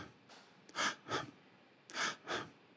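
Quick, short breaths in and out, shown as shallow breathing during a pranayama breathing exercise: four brief, airy puffs in two close pairs, separated by a short pause, alone over faint background noise.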